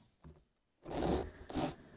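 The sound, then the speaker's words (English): A serrated bread knife saws into a soft loaf: one brief, faint rasp followed by two longer, louder scraping strokes. “Just listen to those serrations cut into that soft loaf of bread. Isn't that sound wonderful?”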